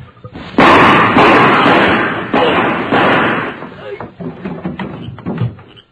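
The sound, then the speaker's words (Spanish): A gunshot rings out in a Spanish-language radio drama as a police agent arrests a man outside his girlfriend's house: one loud, sharp blast followed by further heavy thuds and a long, loud, decaying din. “¿Qué pasó? ¿Quién disparó? Fui yo, muchacho.”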